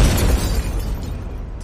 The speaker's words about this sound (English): So you actually have to shoot it to make it explode.